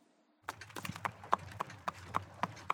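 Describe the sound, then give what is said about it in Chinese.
Horse hooves clip-clop as the horse is ridden: a run of many sharp, fairly loud knocks in a steady, even rhythm, starting after a brief silence. “小美理解，那咱们赶紧去买匹马吧。 小美可不能自己骑马了， 盟主大人带着小美好不好啊？”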